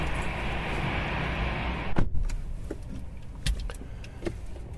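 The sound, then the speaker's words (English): People climb into a tall car with a panoramic glass roof. A steady rush of noise gives way to a heavy thud, then a few soft clicks, rustles and knocks as they settle in, with no talking. “All right, well, let's get in and see if we can navigate. I'll drive first, shall I? Right. In we go.”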